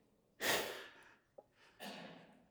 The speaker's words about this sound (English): Let me catch my breath.